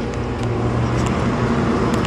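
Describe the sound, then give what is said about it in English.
A garbage or recycling truck passing outside gives a steady, loud, low engine rumble and broad road noise that holds evenly throughout, with no talking. “that other sound is actually a trash truck. Or maybe it's a recycling truck, I'm not sure. But I'm pretty sure that's what it is.”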